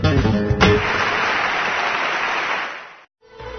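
Applause from a radio ad for a Guitar Art Festival flamenco concert rises as a dense burst of clapping. It holds steady for a few seconds, then tapers off into a brief silence.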